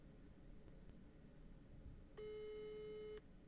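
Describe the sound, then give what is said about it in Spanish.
Telephone ringing tone on an outgoing call: after a stretch of quiet line hiss, a single steady electronic tone sounds for about a second, then cuts off. “Escuchen, ¿ustedes dicen que va a atender? Suena,”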